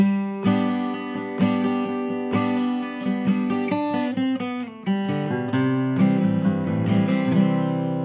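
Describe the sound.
An acoustic guitar plays a lick in time, moving from an open-position G major chord through a backward slide to a C chord. Struck chords mix with quick single-note runs and end on ringing notes.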